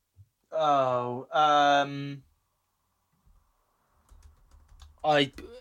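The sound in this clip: Faint typing on a computer keyboard during an online search, a scatter of quiet clicks that follow a spoken voice, with talking resuming at the end.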